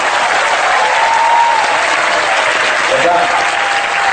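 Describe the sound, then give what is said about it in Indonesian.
Loud audience applause for the mayor of Surabaya at a religious gathering, a thick, continuous roar of clapping sustained evenly from start to finish. “Aplos dong untuk Ibu Wali Kota.”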